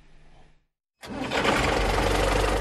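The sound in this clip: A tractor engine starts up abruptly after a brief silence and settles into a loud, steady, rattling run.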